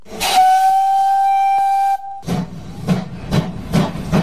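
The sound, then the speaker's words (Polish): Steam locomotive whistle from an old railway steam engine: a loud, steady, high blast lasting about two seconds, then a run of rhythmic hissing chuffs of escaping steam. “To była podróż parowozem.”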